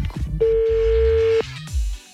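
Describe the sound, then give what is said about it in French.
Telephone ringback while a call is placed to someone: a single steady, mid-pitched ring tone lasting about a second, with low background sound before and after. “on l'appelle Luca, parce que Jessica a bien fait les choses et nous a donné son numéro au cas où”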